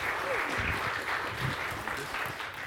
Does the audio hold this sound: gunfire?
no